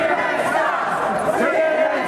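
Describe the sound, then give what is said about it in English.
A crowd on a conservative political convention floor gives a cold reception: a dense, steady din of many voices with scattered shouts that holds at an even level for the whole short stretch. “Not such a warm welcome from the conservative crowd.”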